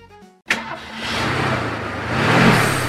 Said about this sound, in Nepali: फेरि गाडी बिग्रियो, तनावै दियो यो गाडीले पनि।